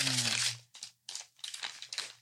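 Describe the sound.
A snack pouch crinkles as it is opened, giving several crisp bursts of plastic rustling separated by brief gaps. A low voice sounds under the first burst.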